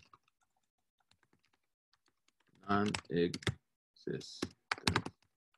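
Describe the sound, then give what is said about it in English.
A computer keyboard is being typed on. Many light, irregular keystrokes sound quietly at first, then several louder clattering bursts come near the end. “I can actually type them here for you. This may be easier.”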